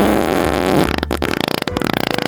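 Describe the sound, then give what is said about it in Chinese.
Flatulence from the body releasing built-up gas: a sustained rough blast, then many rapid sputtering pulses, fairly loud and heard alone. “没错，我们就会放屁。”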